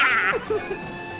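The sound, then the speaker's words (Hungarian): A voice imitates a mare's neigh: a brief, high, quavering whinny at the very start that drops into a few lower, shorter vocal sounds before quiet. “Nyerít be hozzá, mint szép kancalon!”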